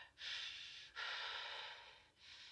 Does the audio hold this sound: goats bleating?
no